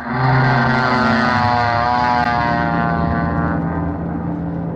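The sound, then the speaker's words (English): A small propeller airplane with an instructor in the front seat takes off, its engine a loud, steady droning hum rich in buzzing overtones that eases slightly toward the end. “Let's see, this must be the plane. The instructor sitting in the front seat ready to go. I'll just step up here in the wing and get in the seat behind him. Okay, buddy, I'm all set. Let's take off.”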